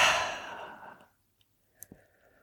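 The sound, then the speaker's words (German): A slow exhale through the mouth during a breathing exercise: a soft, breathy rush of air that fades out over about a second, followed by near silence with a faint brief click. “Den Atem halten und ausatmen über den Mund.”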